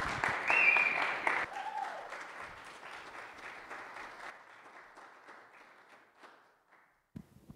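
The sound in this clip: An audience applauds to welcome a speaker at a morning gathering, with dense clapping that peaks early and then gradually thins and fades, ending in a few scattered claps.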